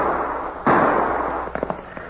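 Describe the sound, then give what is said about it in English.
A single sharp gunshot in an ambush fired from a stand of cottonwood trees, a sudden loud crack with a lingering noisy tail, followed by a few fainter quick crackles. “Well, who could be shooting at us?”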